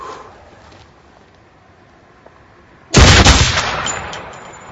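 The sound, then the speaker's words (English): A single loud gunshot cracks out of near-silence and leaves a broad, rumbling tail that fades slowly over almost two seconds. “Everything is fake. Shoot again.”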